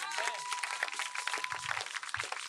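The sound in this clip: Congregation clapping during a church service, a dense, continuous patter of many hands with a voice rising over it at the start.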